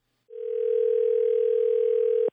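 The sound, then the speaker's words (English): A telephone dial tone plays before a call is placed: one steady, unbroken mid-pitched hum holds for about two seconds, then ends with a brief click. “I got in touch with Moira over the phone.”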